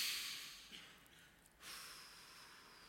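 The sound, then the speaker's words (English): A deep breath in followed by a slow exhale, soft and airy, with no voices. “Take a deep breath. Let it out slow.”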